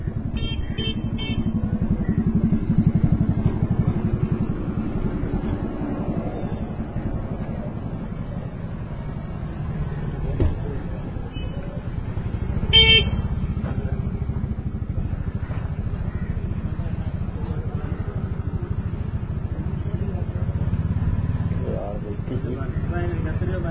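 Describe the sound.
Motorcycle passing outside, its low engine rumble swelling and fading across about twenty seconds, with a couple of louder surges along the way.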